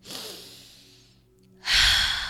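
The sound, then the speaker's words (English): Deep breaths are taken: a long, airy breath fades away slowly, and after a brief quiet pause a louder, rushing breath follows, with no voices. “Take a breath.”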